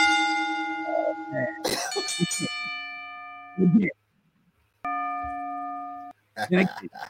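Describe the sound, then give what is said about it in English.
A bell is rung again during wrestling talk, giving a few clear, sustained ringing tones. People talk and cough in the pauses between the rings. “let's go ahead and ring that bell again.”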